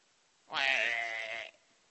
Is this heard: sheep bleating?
yes